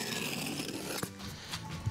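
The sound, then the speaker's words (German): Roofing membrane being unrolled and cut to size on a roof job: a continuous rustling scrape, broken by a few sharp clicks and snips toward the end. “Als nächstes rollen wir die Bahn aus und schneiden die halt passend zu.”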